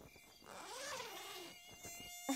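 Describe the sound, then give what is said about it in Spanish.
A mosquito's thin, high whine drifts up and down in pitch as it flies around, fairly quiet and alone. “¿cómo podría dormir con ese mosquito aquí?”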